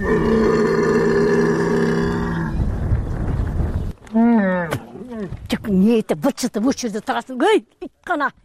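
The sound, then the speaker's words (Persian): A hungry camel moans in deep, drawn-out groans during a severe drought that leaves livestock without grazing. The loud, rough moaning lasts about two seconds and fades into a breathy rumble, followed by a man talking. “این شتر از گرسنگی مینالد و التجا میکند که خوراک دهم، ولی از کجا گیرم؟”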